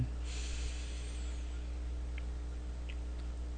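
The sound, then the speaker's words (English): A deep breath drawn in during a guided meditation: a soft, breathy hiss that lasts about a second and stays low and steady, followed by quiet. “And as we take a deep breath in”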